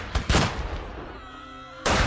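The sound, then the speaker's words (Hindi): Several loud, sharp gunshot-like bursts during an armed clash: two close together at the start, a ringing noisy tail, then another heavy crack near the end, with no talk. “तभी अचानक एक भारी गोली चलने की आवाज आती है”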